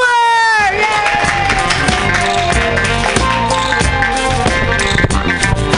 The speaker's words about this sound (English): Put your hands together for your first comedian tonight